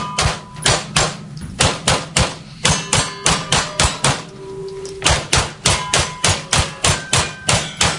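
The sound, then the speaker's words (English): Rapid gunfire at targets on a gun range: many sharp, evenly spaced reports in a fast rhythm, broken by a brief pause near the middle before the quick string resumes. “we should celebrate the fact that she can go to a gun range and do this.”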